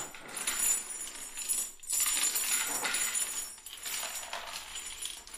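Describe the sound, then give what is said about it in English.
Spare keys jingle faintly as they are handed over, a few soft metallic clinks and rattles with a brief pause in the middle. “that's keys or something? Yeah, I think it's just spare keys.”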